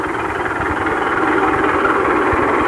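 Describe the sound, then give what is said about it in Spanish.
A 1914 Benz Gaggenau antique fire engine running during a vintage car rally. A loud, steady engine rumble fills the whole clip, with no talk. “Un carro bomba realmente hermoso.”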